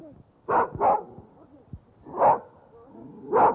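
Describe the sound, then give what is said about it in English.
A fox terrier barks four times in a park in Prague: two quick sharp barks close together, then a single bark after a pause, then a final bark, each loud and short over faint background. “in Kampa Park in Prague's ancient Lesser Quarter, where I persuaded a fox terrier owned by an old lady in a fur coat to give me a sound effect.”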